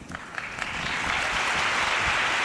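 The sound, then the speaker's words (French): An audience applauds at an athletes' event. The clapping swells over the first second into a thick, loud wash of many hands and stays strong to the end. “Acclamé par le public.”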